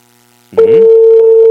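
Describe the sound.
A telephone call tone on an unanswered call: after a brief near-silent start, a loud steady single-pitched tone switches on abruptly and holds unbroken to the end.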